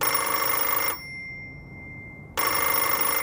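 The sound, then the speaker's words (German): A telephone rings with a call from an editorial office, two loud bursts of bright, buzzing bell ringing separated by a pause of about a second and a half, heard alone. “Anruf aus der Hamburger Chefredaktion.”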